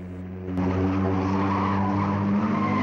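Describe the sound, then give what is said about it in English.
A car brakes hard on a village road to avoid a pedestrian, its tires skidding into a loud, sustained, tonal squeal. The squeal starts abruptly after a quieter engine-like hum and holds steadily to the end. “Up ahead, a woman crosses the road in front of them, and Frances slams on her brakes.”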